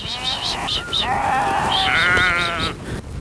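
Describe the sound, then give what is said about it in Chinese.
Sheep bleating on a summer pasture at the foot of the Tianshan mountains as they are driven back to their pen: many wavering, nasal bleats overlap almost continuously, loud and high. “又要赶到他们家位于天山脚下的夏牧场，把羊赶回羊圈”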